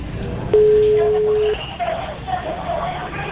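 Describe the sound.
A telephone tone during an outgoing call: one steady electronic beep lasting about a second, followed by muffled voices and chatter.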